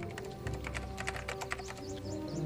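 Typing on a computer keyboard: many quick, light key clicks in a busy, fairly steady rhythm over a low background hum, fairly faint throughout.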